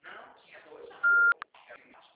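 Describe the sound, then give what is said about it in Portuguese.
A single steady, mid-high voicemail beep cuts in briefly after a recorded voice prompt and before a caller starts speaking. “Sua chamada está sendo encaminhada para a caixa de mensagens e estará sujeita a cobranças após o sinal. Após o sinal, fale o seu nome e deixe o seu recado.”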